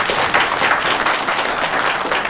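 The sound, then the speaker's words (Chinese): Audience applause at a ceremony presenting local projects, including a music fountain and an old-street guesthouse, a dense, steady patter of clapping at even loudness throughout. “有掌声！”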